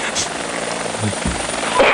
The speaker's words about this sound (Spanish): Sí, no todos los sonidos del helicóptero son agradables.